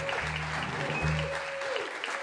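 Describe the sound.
Audience applause, a steady hiss of many hands clapping at moderate volume, with a voice speaking briefly underneath.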